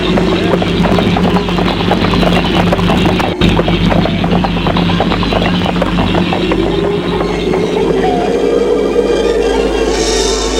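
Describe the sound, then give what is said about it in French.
Hooves clip-clopping as a horse-drawn carriage drives off, rapid loud hoof beats over a continuous rumble of rolling wheels and rattling. “S'assoit dans la calèche et ferme la portière. Et la calèche s'en va.”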